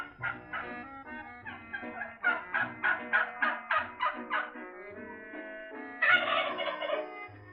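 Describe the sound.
A turkey gobbles, used as a sound effect in a comic radio play about a turkey: a series of rapid, warbling throaty bursts that grow louder, ending in a harsher, higher call.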